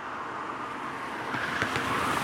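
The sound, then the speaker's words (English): A car passes by as a faint, steady road whoosh that swells slightly toward the end, heard alone without any talk. “Car coming by, I'll hold until it goes.”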